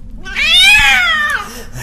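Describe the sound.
A cat gives one long, drawn-out meow that rises and then falls in pitch, loud and alone.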